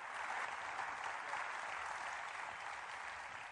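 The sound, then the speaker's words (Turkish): Faint crowd applause breaking out at a traditional wrestling match on Kağıthane meadow, a steady even patter of many hands clapping. “davul zurnalar birden kesildi ve bir alkış koptu”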